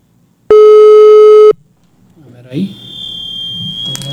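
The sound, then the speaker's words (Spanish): Telephone tone heard while dialing a call: one loud, steady buzzing tone held for about a second and cut off sharply, followed by quieter line noise and a faint high whine. “Ahí le estoy marcando a Gilberto.”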